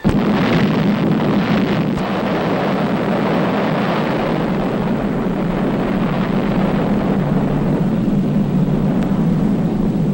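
An atomic bomb explosion from an archival newsreel roars as a loud, continuous, deep rumble with broad noise that holds steady for the full stretch, with no voices.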